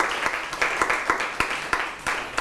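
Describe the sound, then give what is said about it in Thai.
Students applaud a group in a classroom: many dense claps form a continuous, fairly loud wash, with regular rhythmic accents running through it and no talk over it. “ปรบมือให้กลุ่ม1นะครับ”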